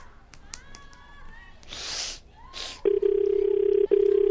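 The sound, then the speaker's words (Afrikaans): A telephone call is dialled on speakerphone: a few short beeps and bursts of rustling handling noise, then a loud, steady buzzing tone that breaks off once before resuming. “Ek sal hom gauw bel. Ek sal. 3 minutes. Dankie. Sit hem op speakerkie.”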